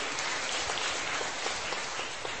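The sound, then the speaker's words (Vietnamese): Congregation clapping to thank a woman speaking at a Catholic gathering, a soft, rain-like patter of many hands that runs evenly with a few distinct claps surfacing. “Chúng ta cảm ơn chị một tràng pháo tay thưa anh chị em.”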